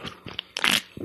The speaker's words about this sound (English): That is a delicious first sip.